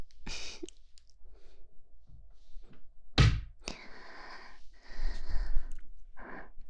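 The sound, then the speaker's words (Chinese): A door is pulled shut with one sharp, heavy thunk, surrounded by softer rustling and faint clicks. “我把门关上。”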